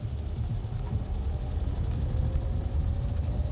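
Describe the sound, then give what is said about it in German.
Steady low engine rumble of a car driving with passengers in the back seat, an even, continuous drone with no voices. “Der Sheriff und ich stiegen hinten ein. Kennst du das Baldwin-Grundstück draußen am Ende von Bossage Point, Andy? Jo. Da fahren wir hin.”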